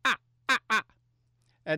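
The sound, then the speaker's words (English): A human voice imitates fish crow calls with short, nasal caws: one note, then a quick pair, then another after a pause, four in all, over a faint low hum. “The American crow, ah, ah, ah. And the fish crow, ah, ah. Okay. Ah, ah. Ah. Ah. And they usually go in couplets,”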